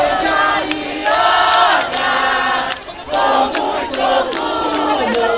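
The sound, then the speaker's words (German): A large crowd in Rio de Janeiro cheers the Olympic host-city decision, a dense, sustained roar of many voices with shouts and chant-like tones that dips briefly twice before swelling again. “Grenzenloser Jubel bei der brasilianischen Delegation in Kopenhagen, grenzenloser Jubel in der brasilianischen Metropole am Zuckerhut.”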